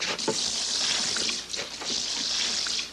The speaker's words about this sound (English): Now we add enough liquid to cover.